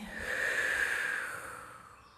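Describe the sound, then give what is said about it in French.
A slow breath drawn during a guided relaxation exercise: one soft, airy breath that swells for about a second and then fades gradually, heard alone with no talking. “Fermez les yeux, inspirez, expirez”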